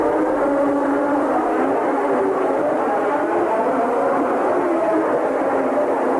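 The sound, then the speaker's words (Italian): Loud, steady roar of Formula One car engines, Alfa Romeo among them, revving at the start of a race. The dense mechanical drone continues without a break and without any separate bursts. “Salgono i motori in partenza.”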